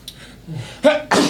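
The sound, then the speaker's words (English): A single sharp sneeze, heard as a two-part burst of breath and voice, loud and alone, after a brief softer breathy sound. “Oh. Oh, bless you.”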